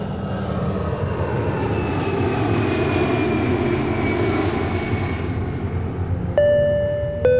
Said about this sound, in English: Attention all passengers, please prepare for takeoff.